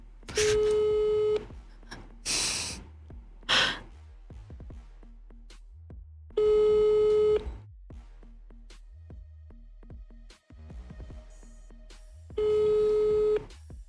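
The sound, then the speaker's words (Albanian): Telephone line tone on a call that goes unanswered: three steady one-second beeps spaced roughly five seconds apart, with faint scattered noises in the gaps between them. “Ky numër nuk e ngre telefonin”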